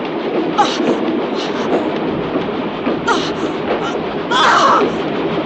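A moving train gives off a loud, steady rumble with a few short hissing bursts rising above it.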